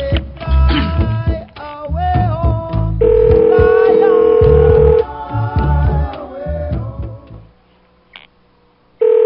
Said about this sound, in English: I gotta turn the fucking ringer off.